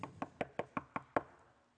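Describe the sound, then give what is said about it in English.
Knocking on a door, imagined as the gates of heaven: a steady, evenly spaced run of sharp raps, the last one loudest, then a short fade into quiet. “at the end of your life, you're standing before the gates of heaven, knocking.”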